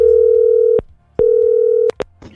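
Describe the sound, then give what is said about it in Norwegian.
A telephone line tone sounds as a call is placed: two long, steady, mid-pitched beeps split by a short gap, then a couple of sharp clicks and faint line noise. “Så nå skal jeg slå på tråden og håpe at Lars Christian tar den da.”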